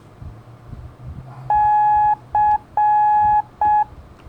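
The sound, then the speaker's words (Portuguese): Morse code for the letter C sounds as four clean electronic beeps in a long-short-long-short pattern. The tone is a steady mid-high pitch over a faint low background hum. “Letra C de Charlie assim. Da, di, da, di. Termina com som curto, C de Charlie.”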